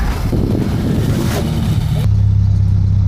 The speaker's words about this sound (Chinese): 转速上不来， 我就停车呢， 没动力，雪太难走了。它空转打滑，沙子跟雪掺在一起，完全没有附着力。